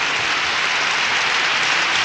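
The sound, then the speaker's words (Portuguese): Audience applause, a dense, even burst of clapping that stays loud and steady from start to finish with no clear break. “mais palmas”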